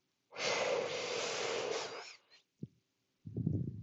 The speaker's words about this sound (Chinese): 吸气，吐气。吸气，